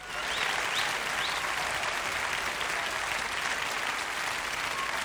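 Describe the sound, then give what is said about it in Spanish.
Audience applause that keeps going, a thick, continuous patter of many hands clapping at an even loudness, with a few faint high whistles near the start. “Están aplaudiendo todavía, aplauden. Siguen aplaudiendo.”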